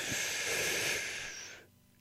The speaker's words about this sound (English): On the count of three, take in a deep breath. Here we go. One, two, three. Breathe in.